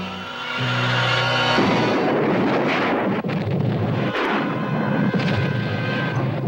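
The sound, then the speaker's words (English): A huge explosion as a Japanese oil company's storage tank blows up, with a loud, sustained, heavy rumbling roar that fills the whole clip, opening with a brief steady tonal hum. “Storage tank of the Japan Oil Company has exploded.”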